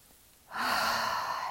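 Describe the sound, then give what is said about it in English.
One deep breath taken during a guided self-care exercise: after a short quiet moment, a loud, steady, airy rush of breath begins and holds evenly until the end. “Take a deep inhalation.”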